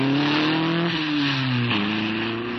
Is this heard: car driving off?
yes